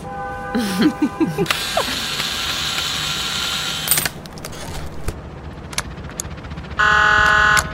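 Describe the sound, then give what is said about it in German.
A screwdriver works on a maintenance panel, with bursts of ratcheting mechanical clicks and whirring, then a steady electronic buzz near the end. “Ich muss an das Wartungspanel ran. Hast du einen Schraubenzieher? Hier.”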